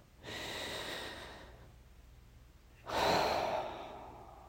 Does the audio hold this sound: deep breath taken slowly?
yes